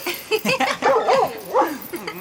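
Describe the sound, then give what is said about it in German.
A dog barks and yips in a quick series of short, high-pitched bursts with whiny tones. The sounds are fairly loud and heard alone. “Euer Hund mag ihn wohl auch. Immer wenn ich Rezzo sage, bellt er.”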